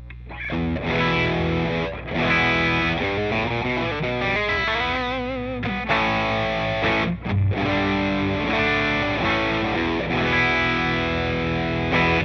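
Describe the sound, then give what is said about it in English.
Electric guitar played through an overdrive pedal built around a JRC4558 op-amp chip, giving Tube Screamer-like distortion; sustained gritty chords and bending lead notes ring out loudly with only brief gaps. “So this is the JRC4558. This is the chip that makes it sound like a tube screamer.”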